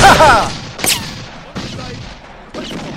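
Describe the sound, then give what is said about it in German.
Gunfire in a firefight: four sharp, loud blasts about a second apart, each cracking out and fading into a hissing decay. “Na, dann schießen die mal schön weiter.”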